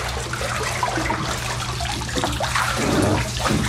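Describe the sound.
Water splashing and sloshing as a person climbs out of a bathtub, a steady wash of water noise throughout that swells slightly louder toward the end.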